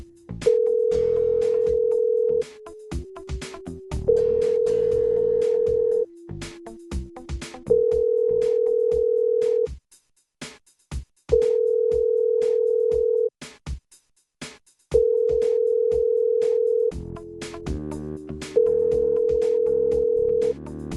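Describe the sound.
A telephone tone heard while placing a call: a steady, level tone comes in six long bursts separated by short gaps, with softer lower tones between some of them and no voices.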